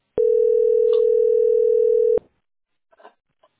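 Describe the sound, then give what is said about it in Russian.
A telephone tone after a dropped call: one steady, unwavering pitch holds for about two seconds, then cuts off abruptly, followed by a few faint, brief noises. “Прошел час, у меня сбросился звонок.”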